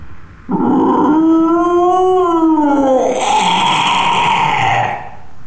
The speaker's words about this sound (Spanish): Y de repente escuché el rugido de un dragón.